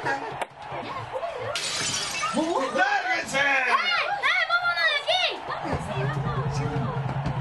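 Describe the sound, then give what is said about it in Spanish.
Old tape-wrapped ball smashing a second-floor window of a neighbouring house: a brief burst of breaking glass under a voice speaking throughout. “Esa vieja pelota vendada con cinta emprendió una larga y elevada trayectoria que acabó con horrible exactitud en la ventana del segundo piso de una casa vecina.”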